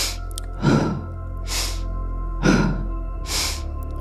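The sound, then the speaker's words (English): Deep breaths drawn in through the nose and let out through the mouth during a breathwork exercise: two slow in-and-out cycles of airy, rushing breath over a steady low hum. “taking a nice deep breath in through the nose, out through the mouth, starting the breath pattern.”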